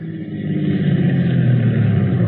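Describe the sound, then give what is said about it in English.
A car approaching, its engine a steady low rumble that swells slightly at the start and then holds at an even level, with no voices over it. “Oh, here comes the car.”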